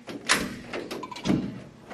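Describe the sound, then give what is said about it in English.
A door is unlocked and opened by its handle, with a few faint clicks and rattles of the latch and handle over quiet background noise. “let me help you go through the door. Here, put your hand on the handle right here. Okay? Look, you gotta unlock it. You gotta unlock it.”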